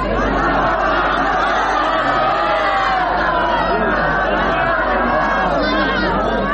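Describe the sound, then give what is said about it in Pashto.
Crowd celebrating a ceasefire in a stadium in Lashkar Gah, Helmand: a dense, loud wall of shouting and cheering voices that stays steady throughout, with no single voice standing out. “د لشکرګا په کرزینو مې لوبغالي کې سلګونه کسان د تاوتریخوالي د کمښت د اونۍ جشن ته راوتلي دي. دوی په ډیر هیجان او خوشحالۍ ویناوې، ګډا او اتڼونه کوي”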